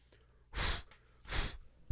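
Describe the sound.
Someone blows on an opened machine in two breathy bursts, each lasting about a third of a second and separated by a short pause, followed by a sudden low thump at the very end.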